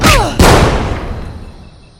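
A gunshot aimed at a president: two sharp, loud blasts in quick succession, the second followed by a long rumbling tail that slowly fades away.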